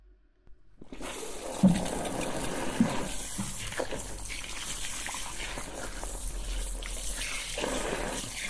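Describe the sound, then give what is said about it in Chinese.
Tap water runs for a rinse. After about a second of near silence it starts and then keeps up a steady, even rush until the end. “眼睛闭上了，开始冲水了。”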